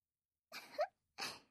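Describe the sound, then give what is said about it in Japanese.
Coughing and choking on a drink, two short, quiet sputtering bursts, the first a quick double splutter, the second a single harsh cough, with silence around them. “何むせてるの？”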